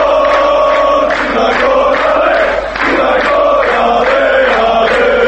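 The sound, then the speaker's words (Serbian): Football fans cheer and chant at a European Championship qualifying match, a loud, steady crowd roar with rhythmic, repeating chant patterns that barely dips throughout. “Ovo, nažalost, nisu navijači crnogorske reprezentacije koji u Poljskoj ili Ukrajini bodre nacionalnu selekciju, već samo snimak sa jedne od utakmica kvalifikacija za ovogodišnje evropsko prvenstvo u fudbalu”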